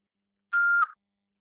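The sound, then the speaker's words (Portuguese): A voicemail beep on a phone line: a single short, steady mid-high tone lasting well under half a second, heard alone against silence. “Após o sinal, deixe seu nome e recado.”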